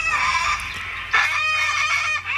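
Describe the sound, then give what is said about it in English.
Cockatoos calling, giving loud, harsh screeching cries. The screeching grows suddenly stronger about midway and then carries on without any talk over it. “There are those cockatoos. Yeah. What do they call them? The comedians of the bird world.”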